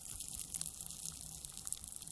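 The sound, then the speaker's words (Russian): Water soaking into a sponge gives a faint, continuous wet hiss with soft, irregular trickling textures. “Сейчас вы услышите, как вода впитывается.”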